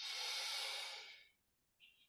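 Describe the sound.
A long, steady inhale taken as part of a slow breathing exercise, a soft rushing breath that holds for about a second before fading into quiet, followed by a short faint breathy sound at the end.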